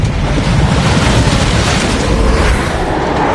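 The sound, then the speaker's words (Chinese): A blizzard's wind roars in a loud, steady, unbroken rush of noise that stays at nearly the same level for the whole clip, with a deep rumbling low end. “啊，有暴风雪！”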